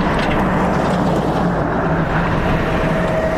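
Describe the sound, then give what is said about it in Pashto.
An aid-carrying vehicle drives a rough, potholed road that crosses mountains from Baghran district in Helmand. A loud, continuous low rumble of engine and road noise with a hissing, wind-like wash holds steady throughout. “د باغران ولسوالۍ ته پر غزیدلې کنډ او کپر سړک د روان هغه کومک لرونکي بایپور موټر ژغ دی چې اوس مهال مرکز لشکرګاه ښار ته د باغران ولسوالۍ څخه راورسېدلی.”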